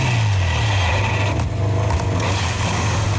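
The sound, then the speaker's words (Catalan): A Honda MotoGP motorcycle scrapes its metal along the asphalt after a crash, a continuous, loud, harsh grinding noise over a low droning tone that dips slightly early on. “Aquest és el soroll de la Honda de Pol Espargaró arrossegant el metall després a l'asfalt.”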